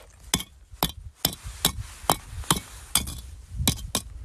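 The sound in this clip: Lava stones are knocked against each other and give off dull, clay-like clacks: a series of sharp, short knocks in an uneven rhythm, each clearly separate, with no voices.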